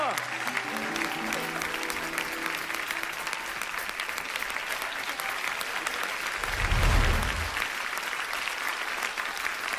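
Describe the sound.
An audience applauds after a Kazakh song at a concert. Dense, even clapping lasts about ten seconds, with a voice briefly heard at the start and a short low rumble swelling near the end.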